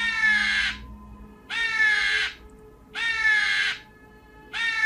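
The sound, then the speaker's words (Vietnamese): Crows caw in a forest: four loud, harsh caws, each under a second long, repeat at a steady rhythm over a low background rumble. “Bỗng nhiên trong khu rừng vắng, tiếng kêu của những con quạ vang lên khiến cho tôi giật mình.”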